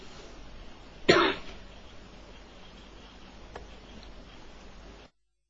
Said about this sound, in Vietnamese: bây giờ tôi vẫn ho, nhưng mà giữa cái ho, hai cái ho này nó có chỗ không ho, nó gần.